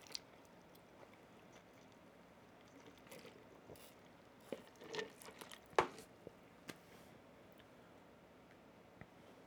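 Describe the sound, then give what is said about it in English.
Faint chewing on an Arby's big game burger: soft wet smacks and small crunchy clicks come sporadically, with a short busier cluster midway, over a quiet hiss and no talk. “I'm not saying it'll take you that long to eat an Arby's big game burger, but that's how long I took.”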